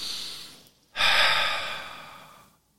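A slow breath out during a conscious breathing exercise: a soft breath, a brief pause, then a louder airy exhale that starts abruptly and fades gradually over about a second and a half.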